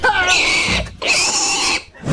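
A pig gives two long, loud, shrill squeals with a brief break between them.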